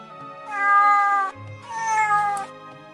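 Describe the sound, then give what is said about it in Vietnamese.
Two sand cats meow, giving two clear, drawn-out mid-pitched calls with a short pause between them. The second call wavers and falls slightly at its end, and no other sounds are heard. “Khiến Hà Ninh ngạc nhiên là hai con mèo cát tròn vo thế nhưng chủ động lại gần y, dùng thân mình cọ cọ chân y, híp mắt phát ra tiếng kêu mèo mèo.”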